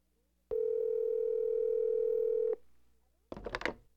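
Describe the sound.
A telephone dial tone holds steady at a constant pitch for about two seconds while a number is about to be dialed, followed after a pause by a brief, rough burst of dialing sounds.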